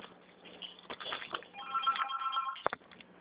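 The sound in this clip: A telephone rings once in a quiet, bell-like burst of about a second, with faint clatter and handling noise before and after.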